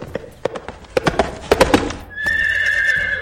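In an amateur radio drama, a prince's horse crosses a town square: a run of many clip-clopping hoof beats, followed by a long, high, steady neigh that carries to the end.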